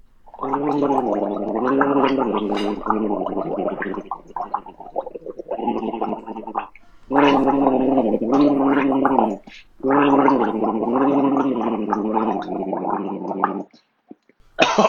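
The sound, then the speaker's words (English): A person gargling a pop song melody, bubbly voiced tones moving up and down in sung phrases, several long loud passages broken by brief pauses, with no other sound. “Can you play that gargle again? Yeah. Let's listen to it again.”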